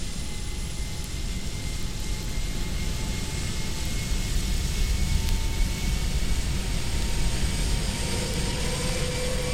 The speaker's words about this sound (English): As the passengers are comfortably seated, they can hear the plane motors as they are each one fired in order. The first two are already running. Now three.